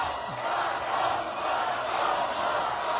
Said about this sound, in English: Paul was cheered at a rally in his hometown of Lake Jackson, which is about 50 miles south of Houston.